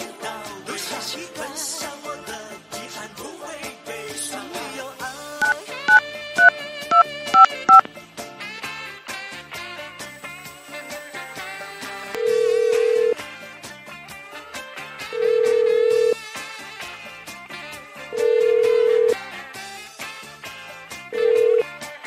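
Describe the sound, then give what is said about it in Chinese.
Telephone keypad tones dial a number in a quick burst of beeps. Four evenly spaced ringback tones follow while the call connects, all set over soft background music. “所以我来打打电话看我妈现在在做什么好”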